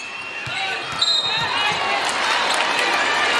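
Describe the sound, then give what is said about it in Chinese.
Basketball dribbled on the court during a game against Spain, a few dull low bounces thudding under steady crowd noise and a commentator's talk. “夹击，现在博格斯运球有点多。”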